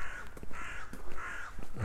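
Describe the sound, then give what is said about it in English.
A crow gives a few harsh, raspy caws in close succession over a noisy background, with no talk. “the crow harks.”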